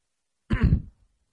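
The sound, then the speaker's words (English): A single throat clearing, one short rough burst lasting about half a second, heard on its own and trailing into silence. “And then there's this little clearing of the throat.”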